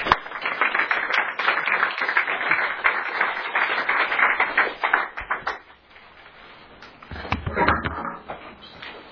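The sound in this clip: Applause from an audience welcoming a speaker to a talk: dense, loud clapping for about five seconds, then thinning out before a short final burst.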